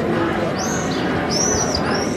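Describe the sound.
Swifts call at their nests in the cracks of an ancient, 2,000-year-old religious site's wall, giving a few thin, high, sweeping screams over a steady, noisy background.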